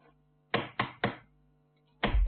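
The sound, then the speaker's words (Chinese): Knocking on a door: a quick run of three hard raps, a pause, then another short knock. The raps are solid and fairly faint. “有人敲门”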